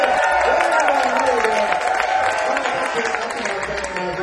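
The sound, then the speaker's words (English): Crowd cheering and clapping at Gray Fox on a Saturday afternoon: a continuous wash of claps and whoops from the audience, fairly loud throughout, with voices blending in. “Let's hear some noise here at Gray Fox on Saturday afternoon.”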